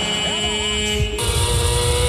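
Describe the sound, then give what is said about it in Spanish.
A racing motorcycle engine on a track during a race gives a sustained high mechanical whine with strong steady harmonics, its tone turning brighter and harsher about halfway through. “Vamos a ver la moto le corre.”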